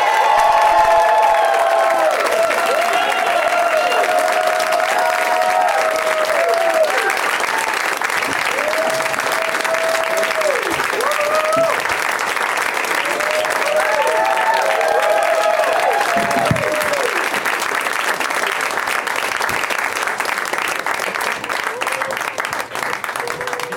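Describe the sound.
Audience applause and cheering welcoming four guests onto a show: a long, loud, sustained burst of clapping mixed with whoops and shouts that keeps going at full strength, with voices calling out over it.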